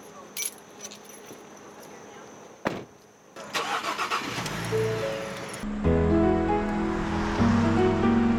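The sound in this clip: A public-transit van's engine in the Poconos starts after a single thump following a quiet stretch, then runs with a steady rumbling drone that grows louder midway and stays strong to the end.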